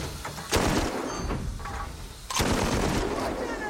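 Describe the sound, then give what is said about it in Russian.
Artillery shells explode near a train in a war film. Two heavy, sharp blasts sound a couple of seconds apart, with a continuous rumbling roar between and after them. “Возле состава взрываются снаряды.”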